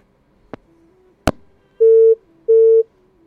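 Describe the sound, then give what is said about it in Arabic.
A telephone busy signal follows a dropped call-in call: two loud, steady, identical beeps with a short gap between them. Two sharp clicks of the line come before the beeps. “قطع اتصال ويا هيام”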